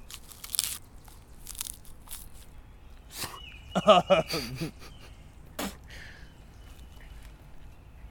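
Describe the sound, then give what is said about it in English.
Biting into a foamy, sawdust-like material gives a short burst of several rapid crunchy crackles midway, with faint rustling and breathy noise around it. “It feels like a bath toy. Yeah. I wish we ate this kind of stuff. I felt like taking a bite of it. But I'm not. Well, maybe I will. I won't swallow it.”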